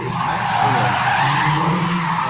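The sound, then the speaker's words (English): Tires squeal as a small Nissan racing car skids, a loud, steady screech lasting about two seconds over a low engine rumble, with no voices. “Little Nissan racing thing.”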